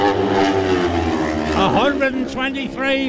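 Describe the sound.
A racing sports bike on a lap-record run flies past on a road circuit, its engine roar rising and then dropping in pitch as it passes, under a commentator's talk.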